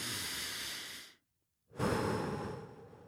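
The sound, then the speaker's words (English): A deep breath drawn in and let out again: a long, loud, airy rush, a short silent pause, then a second strong, breathy rush that slowly fades, with no talking. “I also took a deep breath. Let's do that right now. It feels really good.”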